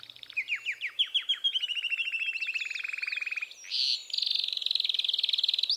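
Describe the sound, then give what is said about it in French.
A canary sings its breeding-season mating song, a high, bright run of rapid trills built from repeated syllables. The syllable type changes several times, with a brief buzzy burst before a final even trill. The bird sings alone. “Durant la saison des amours, du mois de mars au mois de juin, le canari fait entendre son chant de troubadour, sa sérénade, composée à partir de 20 à 40 types de syllabes différentes.”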